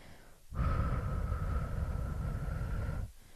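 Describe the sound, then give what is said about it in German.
Slow, controlled exhale through the mouth, a single steady rush of breath lasting about two and a half seconds at even loudness, starting and stopping abruptly with nothing else around it. “Atme nun jetzt sofort langsam und kontrolliert durch den Mund aus und zähle bis vier.”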